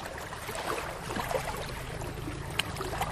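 A boat travelling on the Vistula river toward Tczew gives a steady, continuous rushing drone of engine and water, unbroken and without voices.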